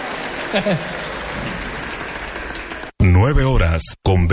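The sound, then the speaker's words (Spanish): A church audience applauds Jesus with dense, steady clapping for about three seconds before a voice takes over and carries the rest. “Te aplaudimos, Jesús, con toda nuestra fuerza.”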